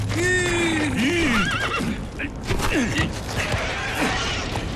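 Horse whinnying after stepping into a rodent hole near fire-scorched tree stumps, with a few loud, high squealing neighs early on followed by rustling, shuffling noise as the animal struggles.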